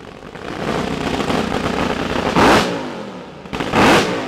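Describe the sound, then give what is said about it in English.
Engines roar at a racing nationals event: a loud, steady, rumbling drone, broken by two sharper surges of revving near the end. “And then these engines roar.”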